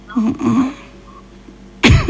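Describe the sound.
A single abrupt cough bursts out at the end, following a moment of quiet voice sounds.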